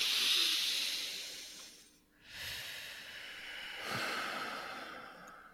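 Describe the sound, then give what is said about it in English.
Four people take a deep breath together, heard as soft, hissy, airy breathing: one long breath, a brief pause, then another long, steady breath, with no talk over it. “maybe the four of us can just take a deep breath together.”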